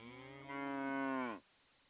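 A cow lets out a single deep, drawn-out moo that swells in loudness and then cuts off abruptly, heard alone without other sounds.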